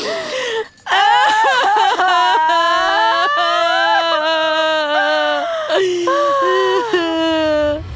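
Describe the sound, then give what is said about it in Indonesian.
A woman cries out loud in long, sustained wailing sobs with a wavering pitch. The sobbing breaks off briefly near the start and again partway through, then resumes just as strongly. “sudahlah tu nangis. Kan saya pula nangis.”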